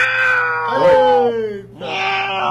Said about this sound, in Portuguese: Isso é uma gata quando tá querendo dobrar. Tá no cio, né?